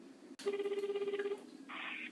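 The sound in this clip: Telephone ringing tone as a dropped call is redialled: a fast-pulsing, low, buzzy tone lasting about a second, then breaking off into a brief soft hiss. Quiet overall, with no talk over it.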